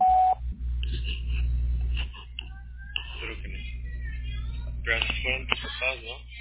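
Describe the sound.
A single short, steady electronic voicemail beep sounds at the start, followed by a voice talking over a phone line.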